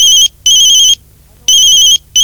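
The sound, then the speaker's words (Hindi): Telephone ringing for a call placed to Ramnagar: loud, steady, high-pitched electronic rings in a repeating double-ring pattern, two bursts close together, then a pause, then two more. “अब मुझे रामनगर कमल जी के पास phone करके और उनको सूचना करना चाहिए”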